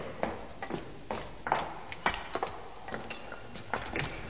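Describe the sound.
Footsteps hurry quietly down a staircase in a radio drama: many light, soft thuds at a quick, even pace, faint and unaccompanied.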